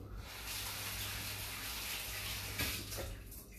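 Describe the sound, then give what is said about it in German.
Running tap water as hands are washed in a kitchen while green asparagus in puff pastry is prepared. A soft, steady hiss of flowing water, with a couple of brief splashy bursts near the end. “So, mal Hände waschen nochmal.”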